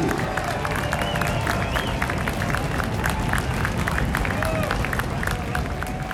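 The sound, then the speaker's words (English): Crowd cheering and clapping at a Canadian Premier League soccer match at Starlight Stadium for Pacific FC. A dense, unbroken roar of many voices and applause holds steady throughout, with scattered shouts rising above it. “make some noise. Let's get things going for your PFC.”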